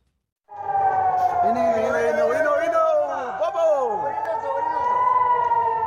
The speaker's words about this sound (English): This is the sound of sirens as Palestinian militants in Gaza fire more than 100 rockets into southern and central Israel.